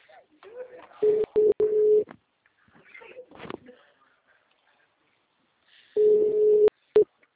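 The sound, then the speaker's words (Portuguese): Telephone ringing tone while a call connects: two long, steady, mid-pitched tone bursts about five seconds apart, each closed by sharp clicks, with quiet talk and rustling in the gap between them. “Tá chamando”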